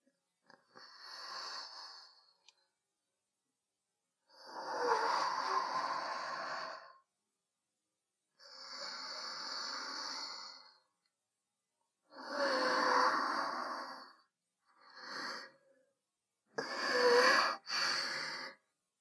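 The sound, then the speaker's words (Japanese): Slow, deep breathing to calm nerves: several long, airy breaths separated by quiet pauses, soft and breathy with no talk over them. “一旦深呼吸ですか？そうですね。”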